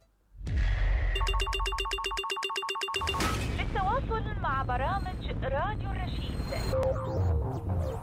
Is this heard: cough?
no